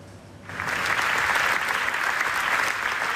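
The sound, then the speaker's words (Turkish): Standing ovation at the Venice Film Festival for a documentary about the Gaza massacre. After a brief quieter moment, dense clapping starts about half a second in and continues at a steady, loud level. “Venedik Film Festivali'nde bir film 25 dakika boyunca ayakta alkışlandı.”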